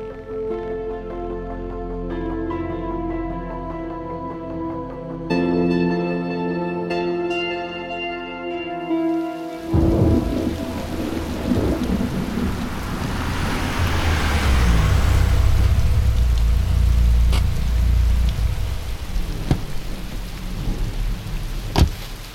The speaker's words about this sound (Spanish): Pues ya ves, aquí disfrutando de la lluvia.